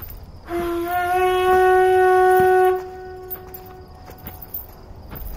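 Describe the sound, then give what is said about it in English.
A conch shell blown as a signal while walking gives one sustained, horn-like tone lasting about two seconds with a rich stack of overtones, followed by scattered soft thumps. “Hey, keep sounding the shell while we walk. Someone could think it's a distress signal and come to our rescue.”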